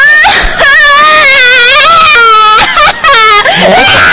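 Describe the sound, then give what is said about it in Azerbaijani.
A young girl crying loudly: drawn-out, high wailing sobs that waver in pitch, with a few brief catches of breath between them. “Nə oldu, ay qızım, niyə ağlayırsan?”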